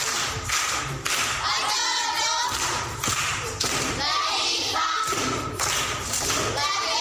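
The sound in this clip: An audience of schoolchildren claps for a primary-school pupil, loud rhythmic bursts of clapping mixed with heavy thumps, repeating in a patterned beat with short gaps between.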